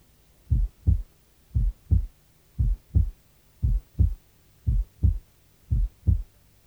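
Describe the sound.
Normal heart sounds at the right base, the second sound louder than the first: six evenly spaced low-pitched lub-dub pairs beating in a steady rhythm, with no other sound.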